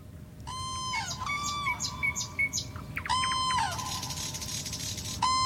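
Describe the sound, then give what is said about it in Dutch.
Cranes trumpeting on the island of Saaremaa, Estonia, in their breeding area: loud, bending harmonic calls in a few bursts and overlapping phrases, with lower background noise underneath. “Wat een getrompetter. Ze leven op het eiland Saaremaa in Estland, waar ze broeden. En wie, voor wie goed luistert, die hoort ook nog een Noordse nachtegaal.”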